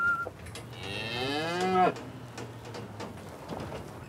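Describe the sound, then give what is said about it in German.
A breeding bull moos inside a livestock trailer, letting out one loud, drawn-out bellow with strong harmonic tone that breaks off sharply, leaving a low steady background rumble. “Jetzt ist der Viehhändler endlich da. Im Anhänger Deckbulle Ivo.”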